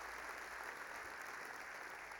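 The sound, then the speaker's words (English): Faint, steady applause from a church audience welcoming another venue site, a continuous even patter of clapping throughout with no voices standing out. “So give it up for The Venue over there in our thing.”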